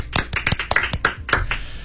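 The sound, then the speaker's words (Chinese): Applause from the audience in a radio studio: a quick run of uneven, overlapping claps, moderately loud and alone without talk. “来所有人鼓掌”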